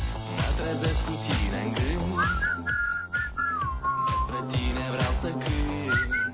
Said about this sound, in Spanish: Todos silbando al unísono.